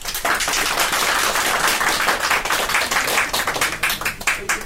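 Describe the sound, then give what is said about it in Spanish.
Applause welcoming a guest to an interview session, many hands clapping in a dense, loud patter that stays steady throughout. “Aplausos, por favor.”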